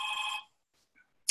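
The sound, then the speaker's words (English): A telephone rings: a short, bright ringing burst, then a brief quiet pause, then the sharp start of another ring. “I'm going to answer that phone for a second.”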